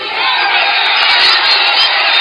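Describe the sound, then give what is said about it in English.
A crowd boos and yells at Ted Cruz as he stands at a podium, shouting Trump's name. The roar is loud and continuous, with dense shouting that holds throughout. “The crowd is booing him, yelling Trump.”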